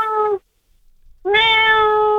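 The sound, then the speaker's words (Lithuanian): A cat meows twice, loud and clear with no talk. A short meow is cut off at the start, and after a brief gap comes a longer, steady, high-pitched meow. “Nu, ta prasme, tikrai katino garsas.”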